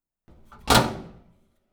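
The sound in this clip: A sauna door swinging shut with a single solid thump, preceded by a soft rubbing sound and fading out over about half a second, with no talking.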